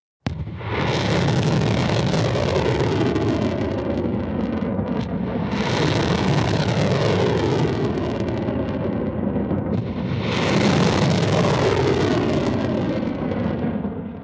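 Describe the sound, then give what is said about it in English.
Ballistic missiles launched at night by Iran's Revolutionary Guards, a loud, continuous rumbling roar that swells three times as successive launches fire, with no voices. “the Iranian Revolutionary Guards released this footage of several ballistic missiles being fired on Monday night.”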